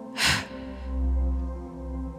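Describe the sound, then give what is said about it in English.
A sharp breath is forced out during a guided breathing exercise in a morning meditation: a single short, hissy burst over a steady low musical drone. “Breathing in, exhaling sharply.”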